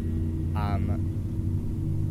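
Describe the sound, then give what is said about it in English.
A cargo train slowly passing along the Hudson River makes a low, continuous rumble that stays steady throughout. A voice speaks briefly over it near the middle. “There's a cargo train slowly passing in front of us”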